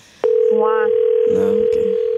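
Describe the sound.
A steady telephone dial tone plays while someone is being called: one unbroken, even, mid-pitched hum starts abruptly and holds at constant loudness, with voices speaking over it.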